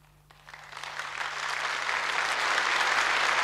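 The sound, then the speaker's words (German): Audience applause at a prize award ceremony, rising within the first half-second from near quiet into a dense, steady clatter of clapping hands that holds to the end, with no voices. “Ich glaube, Sie bitten zu müssen, mit Ihrem Beifall noch zu sparen.”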